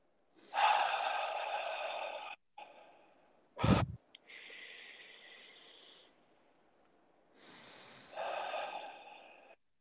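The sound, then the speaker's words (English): Deep, slow breaths during a guided breathing exercise: long airy inhales and exhales with a brief snort-like catch between them. The breathing is quiet and alone, without talk. “take a few deep breaths together, just following my cue, if you can hear my inhale.”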